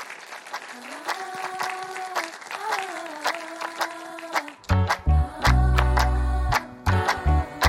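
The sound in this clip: An audience applauds to welcome a speaker, with a crackle of many hands clapping under a talking voice, then heavier sounds toward the end.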